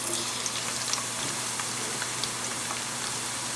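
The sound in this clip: Thin onion slices sizzling as they fry in oil, a steady, even crackle with scattered tiny pops. Quiet, with no voices.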